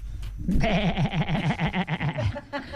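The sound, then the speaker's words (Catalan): A human voice imitates a goat bleating. The sound is a nasal, quavering tone with a fast wavering vibrato, held steadily for about two seconds before it trails off. “Això que és també cabrit. És un dialecte del cabrit, sí.”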